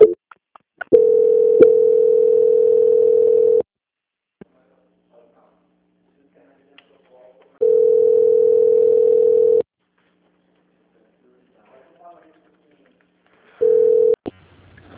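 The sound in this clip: A telephone tone sounds during a call transfer: a steady mid-pitched tone in three separate bursts with silence between them, the first two long and the last cut short.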